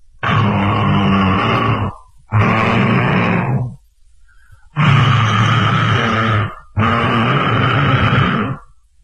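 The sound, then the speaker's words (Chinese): A voice imitates loud, thunderous snoring from a sleeping man: four long, rough, rasping snores, each about two seconds, with short silent gaps between them, heard alone. “一睡着这就打呼噜，鼾声如雷，本来这嗓门就大，这呼噜大的好家伙，排天倒海，”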